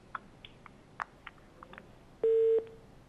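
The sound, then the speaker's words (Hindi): A telephone line tone sounds after a dropped phone-in call: one loud, steady beep lasting about a third of a second. A few faint clicks come before it. “Call हमारी drop हो गई है जी।”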